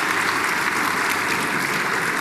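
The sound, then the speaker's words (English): Audience applause for a corporate sponsor at a members' event: dense, even clapping that holds steady at one loudness for two seconds, with no voices over it. “All right, this is going to take ages if we clap for everyone, because there are a lot of sponsors.”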